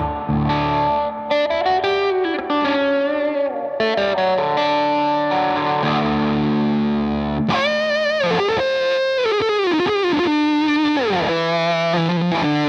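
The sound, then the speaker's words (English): Fender electric guitar through distortion and chorus effects plays a continuous run of sustained, clearly pitched notes, turning brighter and more aggressive midway with wavering bends. “It takes it from a Fender to a whole nother world.”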